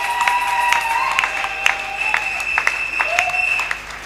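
An audience applauds during a Sunday closing service at a church, a brisk, moderately loud clapping over a steady held tone, lasting about four seconds.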